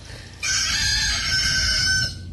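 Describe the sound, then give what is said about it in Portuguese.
A rooster crows as a farm sound effect, one long, loud, drawn-out call of about a second and a half over a low rumbling background. “Bota o galo aí, meu filho, a fazenda, o galo.”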